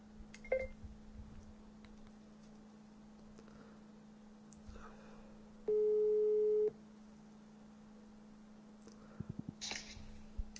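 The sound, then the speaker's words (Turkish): A WhatsApp call ringing tone sounds as a single steady, low beep of about one second over a faint hum, followed by a few soft clicks. “WhatsApp'tan arıyorum. Arıyor tamam, bir dakika dur.”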